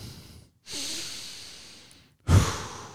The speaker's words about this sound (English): Oh, I need to take a deep breath.